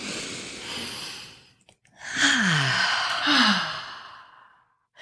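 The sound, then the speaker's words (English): Deep breathing during a guided breathing exercise: a long airy breath, a short pause, then a louder, longer sigh-like breath with a falling voiced tone. “And let's go ahead and take a breath in.”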